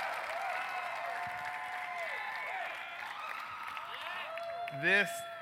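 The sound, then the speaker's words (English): Audience applause and cheering to welcome a keynote speaker, with sustained whoops and rising and falling shouts carried over continuous clapping at an even level, then a brief louder burst near the end. “gentlemen, get loud as we welcome our keynote speaker, Mr. Mick Ebeling.”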